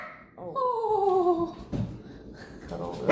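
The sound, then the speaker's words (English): A frightened dog vocalizes while a plane passes overhead, giving a drawn-out whining cry that slides down in pitch, followed by a few quieter breathy sounds. “There's a plane going overhead, so she's like barking because she's so scared.”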